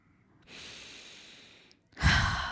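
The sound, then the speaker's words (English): A deep breath is drawn in slowly and steadily, then after a short pause comes a louder, forceful exhale like a sigh. “Take a deep breath.”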